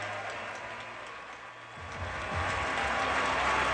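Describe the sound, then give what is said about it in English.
Standing ovation at center court from players, spectators and announcers, a steady dense wash of many hands clapping that swells louder midway and holds. “Standing ovation from everybody, the players, the spectators, the announcers.”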